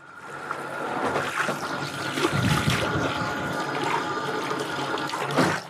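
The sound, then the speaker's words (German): Running water pours steadily while hair is being washed at a hair salon, a continuous splashing hiss with small fluctuations, moderately loud and free of talk. “Komm, wir gehen mal Haare waschen.”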